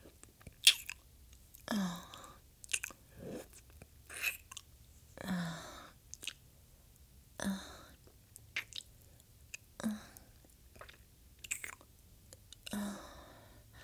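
Wet licking and mouth sounds: many short, soft smacks and clicks at an irregular pace, faint throughout with no speech.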